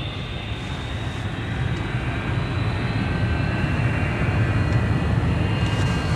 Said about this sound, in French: Ça y est, on décolle. Enfin, j'espère.